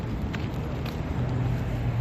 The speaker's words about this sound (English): I know how the lights work and how the traffic goes. It lets the bus go by.